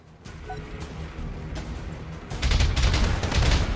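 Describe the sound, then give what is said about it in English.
Rapid gunfire from enemy mechs in a turn-based mech video game. A low, steady rumble gives way to a loud, dense volley of overlapping shots that fills the second half. “Shooting at the Shadowhawk. Not too much. Enemy turn.”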